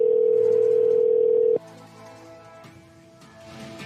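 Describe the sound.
A telephone dial tone hums loud and steady while someone calls a person back. It holds for about a second and a half, then cuts off abruptly, leaving fainter electronic tones behind.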